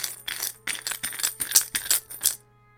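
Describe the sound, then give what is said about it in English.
Handful of coins rattling inside a hollow gourd prop: bright, jangling metallic shakes in uneven bursts for about two and a half seconds, then stopping abruptly. “as a handful of coins bound around inside of his skull”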